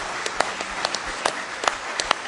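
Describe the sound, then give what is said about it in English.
Scattered hand clapping from a church audience offering praise during a worship service. A few sharp, irregular claps stand out over a steady wash of background noise. “Let's give him a real good hand clap of praise tonight.”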